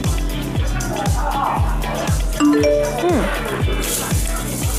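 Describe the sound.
A phone message notification chime at a busy food market, a short run of bright tones with a gliding note over a steady rhythmic musical beat and background bustle.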